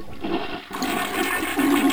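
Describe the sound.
A toilet flushes with an abrupt rushing surge of water that keeps swirling and gurgling to the end, loud and without voices.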